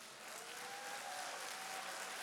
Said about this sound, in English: They are. I actually know they wouldn't want the applause, but that's kind of you to do.